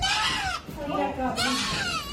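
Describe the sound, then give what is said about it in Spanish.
A goat bleats twice on a building terrace in Madrid during a firefighter rescue. The wavering, strained cries come at the start and end, with a voice speaking between them. “al final la cabra ha venido hacia la terraza ella sola.”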